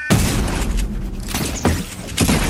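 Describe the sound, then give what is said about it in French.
Gunfire from the online shooting video game Fortnite: dense, loud bursts of shots and booms over a busy, noisy background, with a few sharper blasts standing out. “Fortnite, si vous ne connaissez pas, Fabienne, ça donne ça.”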